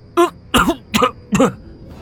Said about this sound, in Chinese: 却被笑声牵动了伤势，剧烈地咳嗽起来。